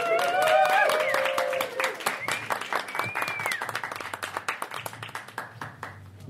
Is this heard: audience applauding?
yes